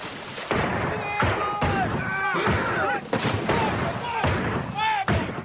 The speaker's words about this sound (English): Thorndale drops his hand swiftly, and the rebels open fire.